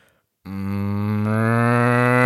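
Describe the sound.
A person imitates a cow's moo: one long, loud, steady lowing call with a rich buzzing tone that starts abruptly after a moment of silence and swells slightly in strength as it is held.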